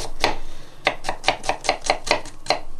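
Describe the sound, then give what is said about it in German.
Onions being chopped finely, a quick, even run of crisp, sharp knife strikes at a steady rhythm, with no talking. “schön fein, die Zwiebeln, nach Möglichkeit fein.”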